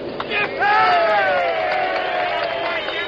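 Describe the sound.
Crowd cheering a tumultuous welcome for General MacArthur beside the Bataan on a cool night: a loud, sustained roar of voices and whoops that swells early and then holds steady.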